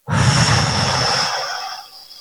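A long, forceful breath is blown out during a guided exercise to release negative energy. A steady, breathy rush of air comes on suddenly and fades out over about two seconds, alone.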